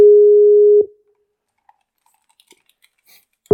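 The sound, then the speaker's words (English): A steady electronic beep tone on a call line, holding level for under a second before cutting off. A few faint clicks follow in the silence, then the same tone starts again at the very end. “I apologize for the beeping.”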